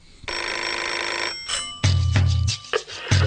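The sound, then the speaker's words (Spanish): An alarm clock rings with a bright, steady metallic bell tone that lasts about a second before cutting off. A few shorter, lower knocks and rustles follow it. “necesitamos un despertador que suene”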